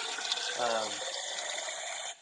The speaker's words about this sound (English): somebody's washing dishes or filling a cup. Oh, sorry, I should have muted.